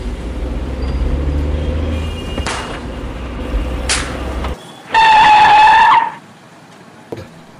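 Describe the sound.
A car speeds off in a radio drama. A low engine rumble carries a couple of brief bursts, then a loud, high tire screech lasts about a second before it cuts off, leaving quiet and a single short click.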